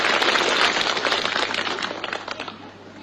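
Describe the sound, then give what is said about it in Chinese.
Audience applause at a Chinese crosstalk comedy show, cued before a performer takes on an opera role: dense clapping that gradually thins and fades, ending in a few scattered last claps. “来， 掌声响起。您这掌声一完，我就是李奶奶了。”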